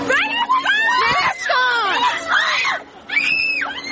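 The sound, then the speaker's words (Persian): A woman shrieks and shouts in Iran after being accused of not observing compulsory hijab; loud, high-pitched screams and cries run almost without pause, with a few brief dips between bursts. “صدای فریاد و جیغ زنی که تنها اتهامش رعایت نکردن حجابی است که آن را اجباری می‌داند.”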